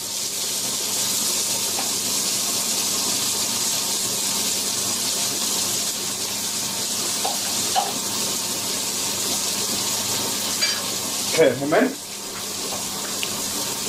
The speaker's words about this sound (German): So, jetzt kippe ich mal die Soße rein.